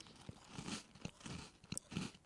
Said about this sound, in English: I'm going to go in there and give it a crunch and see if I end up with crumbs all over the desk